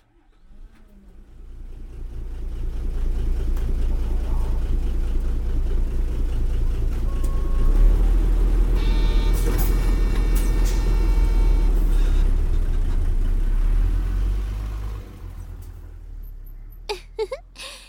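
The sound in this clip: A bus arriving and coming to a stop, its engine giving a heavy, steady low rumble with high squealing tones partway through, before the engine noise drops away and a few sharp clicks follow.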